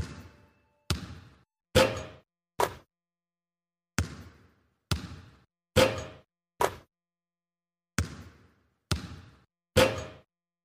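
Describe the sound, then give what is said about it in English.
A basketball bounces in sharp, hollow thuds, eleven hits in total, grouped as four, four and three, each group evenly paced with short silent gaps between groups. “Nothing but net. That's how the game is played. A pattern of basketball sounds.”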